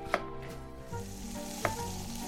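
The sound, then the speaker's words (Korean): Zucchini stir-frying in a pan makes a soft, steady sizzle, broken by two sharp clinks of a utensil against the pan. The sound is faint and has no talk. “제일 쉬운 애호박 볶음부터 시작.”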